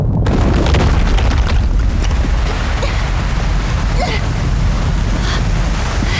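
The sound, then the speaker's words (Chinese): Heavy, continuous rumbling roar of a stone wall collapsing as sand pours in, loud and dense from start to end with no pauses. “石墙要塌，流沙要进来”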